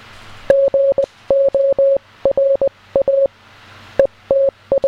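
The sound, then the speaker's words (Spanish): Morse code signal: a steady, clear high beep keyed into many short dots and longer dashes, sent in quick rhythmic groups with small gaps between them. “De hecho, espera, tengo otro corto de Morse más.”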